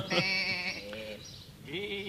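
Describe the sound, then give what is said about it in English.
Sheep bleat in a couple of wavering, nasal calls, a loud one at the start and a rising one near the end, with a quieter stretch between. “those are sheep, aren't they?”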